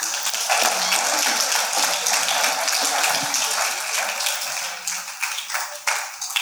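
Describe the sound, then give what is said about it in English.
A church audience claps during a worship service: dense, sustained applause that thins into more scattered claps near the end. “Clap for Jesus.”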